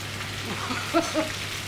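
Schnitzels sizzle in a pan, part of a batch of twenty fried for a catering service: a steady, faint crackling hiss with a couple of small pops.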